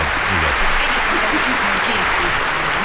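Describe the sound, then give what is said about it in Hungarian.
Steady applause from an audience, a dense, even clapping that holds at a constant level throughout, with faint talk underneath. “Egy nagy tapsot neki.”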